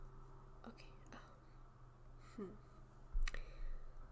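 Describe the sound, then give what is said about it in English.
Tarot cards being turned over one after another as they are laid out in a plus shape. Soft flicks and light clicks come a few times, spaced apart, under quiet whispering. “I think I set them up like a plus shape. Now I turn them over.”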